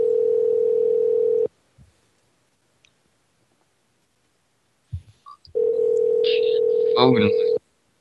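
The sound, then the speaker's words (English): Telephone dial tone hums while a call to a kid phone line is being placed: a steady, flat mid-pitched tone, then a pause with a few soft clicks, then the same tone again, ending with brief tonal blips. “I'm going to call the kid phone line, okay?”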